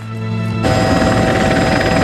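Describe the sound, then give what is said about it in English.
A helicopter lowering a search and rescue team into a forest gives off a loud, steady mechanical roar with a whining tonal drone, swelling fuller after a brief moment. “A search and rescue team are lowered into the forest from a helicopter.”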